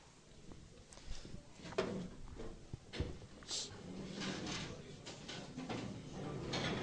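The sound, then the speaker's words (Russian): Chairs being moved aside in a room before group prayer, a scatter of faint knocks, bumps and scraping shuffles spread unevenly over several seconds. “Давайте мы сдвинем вот эти стулья туда в сторону. Сдвигайте их туда.”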